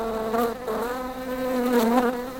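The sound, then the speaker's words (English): Buzzing of a bee and a wasp: a continuous droning hum, loud and steady throughout with a slight wavering in tone and no voices. “Is that bee buzzing at me? And is that wasp buzzing at me?”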